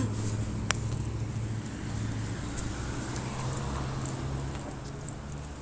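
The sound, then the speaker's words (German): Car engines of passing traffic, heard during a walk with a dog: a steady low rumbling drone with a faint hiss on top, even and continuous throughout, with no single vehicle standing out. “Automotoren sind am Start.”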